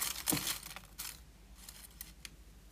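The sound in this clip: Folded paper slips are shuffled by hand, giving faint, brief rustles and crinkles, with a slightly louder burst near the start and softer scraping after it, no talk.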